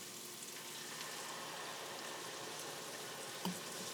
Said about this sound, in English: I'm gonna deglaze the pan now with a half a cup of red wine.